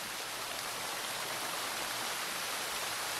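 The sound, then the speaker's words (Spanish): Steady rushing water from a palace garden fountain: a constant, even hiss of flowing water with no breaks or distinct splashes, fairly quiet, and no voices. “si nos puede activar el agua para empezar con ella, este agua que suena así.”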